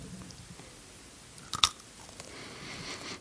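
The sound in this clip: Quiet chewing of a crunchy, cracker-like savoury roll, soft mastication broken by one sharp, brittle crunch partway through.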